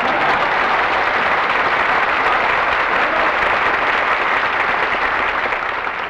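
An audience claps to welcome Phil, the bandleader, arriving on stage. The dense, even applause stays loud and steady from start to finish with no voices above it.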